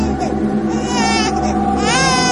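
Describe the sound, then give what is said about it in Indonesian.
An infant crying in the corner of a lift: loud, wavering, wailing cries that repeat over a constant dense drone with no pauses. “suara bayi menangis jelas terdengar dari arah pojok ruangan lift ini.”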